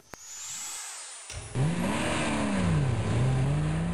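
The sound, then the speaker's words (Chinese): A jeep speeds out of a parking lot, its engine revving into a loud, sustained roar whose pitch climbs and dips as it accelerates hard. “吉普车风驰电掣般冲出了停车场”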